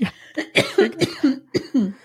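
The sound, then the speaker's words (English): Coughing and choking from one person: a rapid run of harsh, partly voiced bursts that follow one another closely, with no speech between them. “Excuse me.”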